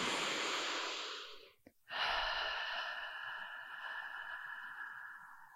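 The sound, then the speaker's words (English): Deep breathing, drawn in through the nose and let out through the mouth: two long, airy breaths separated by a brief silent pause. Both are soft and hissy, with no talk. “taking a couple deep breaths, moving the breath in through your nose, out through your mouth”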